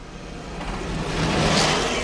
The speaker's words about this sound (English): The tank has just overtaken us again. It's gone straight through a red light.